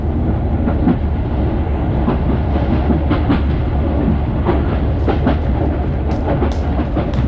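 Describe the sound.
A passenger train with a dining car runs on rails, making a loud, steady low rumble. Rhythmic clickety-clack of the wheels over the rail joints runs through it, and no one talks.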